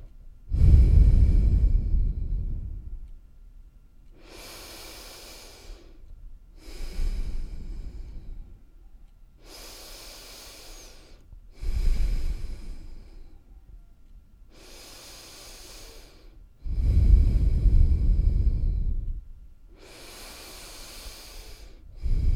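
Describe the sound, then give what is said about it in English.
Slow, rhythmic breathing in unison during a group relaxation exercise, with airy hissing breaths alternating with deeper, rushing exhales. The cycle repeats many times at an even pace, with no talk. “Let us take a breath together”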